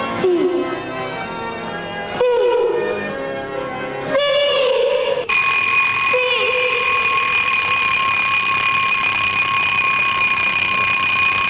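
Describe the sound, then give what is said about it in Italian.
An alarm clock ringing for the morning: a loud, shrill, continuous ring that sounds steadily and unbroken for several seconds after a few changing sounds at the start. “Ma sei tu che svegli la sveglia o la sveglia che sveglia te?”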